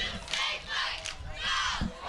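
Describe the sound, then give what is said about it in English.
A fired-up football crowd cheers and shouts along the Sandusky sideline on a fall night, rising and falling in a few loud swells of massed voices. “Fired up Sandusky sideline, good crowd, beautiful fall night here.”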